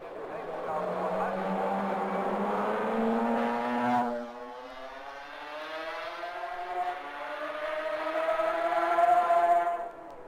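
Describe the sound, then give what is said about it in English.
A Suzuki racing motorcycle engine sweeps through Parliament Square during a road race, a loud sustained whine that dips briefly near the middle, then climbs steadily in pitch as it accelerates away. “the Suzuki sounded fine as John Williams swept it through Parliament Square.”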